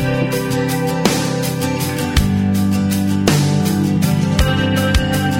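A Christian rock song plays on air, with a full band sound of sustained chords over a steady beat. Sharp accented hits punctuate the mix at intervals, and the level stays loud and even throughout.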